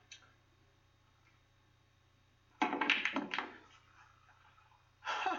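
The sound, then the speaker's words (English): Pool balls clatter on a split shot, with the six ball sent into the corner pocket: a dense burst of knocks and clicks, then a shorter second burst, over a faint low hum. “Okay, split shot. 6 ball in the corner pocket.”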